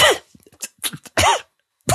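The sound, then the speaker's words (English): A voice imitates a sickly boy's cough: a few harsh, hacking coughs separated by short gaps, the last two loud and strongly voiced, with no words. “this little sickly boy with a cough pushing a wheelbarrow of dragon meat”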